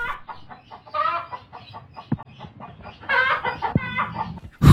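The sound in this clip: A chicken clucks in many short, choppy calls that grow louder toward the end, with a few sharp clicks between them and no voices.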